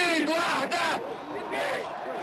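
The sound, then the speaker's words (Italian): Protest crowd in Tahrir Square, Cairo, shouting after Hosni Mubarak's speech to the nation: a loud, dense mass of raised, yelling voices that swells and surges without pause. “La fine del discorso alla nazione del presidente egiziano Hosni Mubarak ed il crescendo delle urla di protesta di piazza Tahrir al Cairo.”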